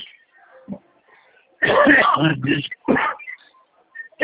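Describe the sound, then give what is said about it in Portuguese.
A person chokes and coughs during a phone call, producing a few harsh, throaty coughing bursts. One long bout comes near the middle, with shorter coughs before and after. “Desculpa que eu me engasguei.”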